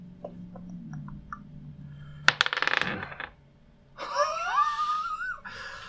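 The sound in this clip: Dice rolled during a tabletop role-playing game clatter in a dense burst of rapid clicks lasting about a second. A wavering, breathy high whistle follows.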